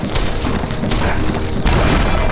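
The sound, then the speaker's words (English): Dynamite explosions in a video game: dense, loud rumbling blast noise runs without a break, with a sharper, stronger surge near the end. “This is a much more wide open area where dynamite would be a wonderful weapon to use. Like that on you. You're too far away, but I'm going to use this on you. In fact, I'm going to use two of them, just in case.”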